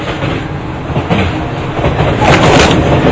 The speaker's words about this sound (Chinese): 我在火车上回老家。